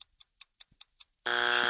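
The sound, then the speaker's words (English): A game buzzer ends a timed word-guessing round: six evenly spaced, faint ticks lead into a loud, steady, harmonic buzz that holds to the end. “Okay, that's our buzzer.”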